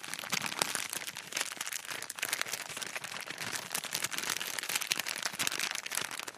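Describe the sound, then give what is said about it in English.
Plastic candy bag crinkling in a movie theater, a bag of jujubes, Snowcaps or M&Ms, giving a dense, continuous crackle of crumpling that stays busy and fairly loud throughout. “some guy's got a bag of freaking jujubes or what are they called? The snow caps or just a bag of M&Ms or something.”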